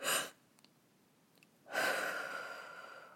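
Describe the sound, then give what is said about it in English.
A person demonstrates a breathing exercise: a quick breath in, a quiet held pause, then a long, slow breath out that gradually fades. Soft and breathy, with no speech. “So for that one, when they have 2 up-ups, so they breathe up again, hold it for 2 to 3 seconds, and then breathe out for 2 to 5 seconds. So it would sound like,”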